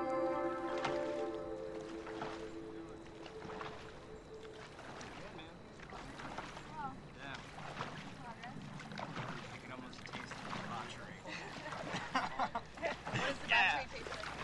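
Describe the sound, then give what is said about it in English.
A boat gliding slowly over calm water, with a soft, continuous wash of water and hull noise running under people talking throughout. “Kitty sits up at the prow of the boat and stretches her arms above her head as it glides slowly over the water.”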